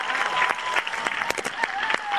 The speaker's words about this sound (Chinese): 我哋俾更加热烈嘅掌声，好嘛？